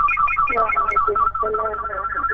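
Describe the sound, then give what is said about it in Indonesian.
A telephone rings with an incoming call: a melodic electronic ringtone repeats its short tonal phrase steadily at a moderate, clear level. “sebelum kami membaca WhatsApp, kami akan terima kembali telepon.”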